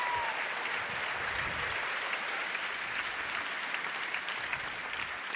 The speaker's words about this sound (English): Your applause is totally premature, of course. You haven't seen the film yet.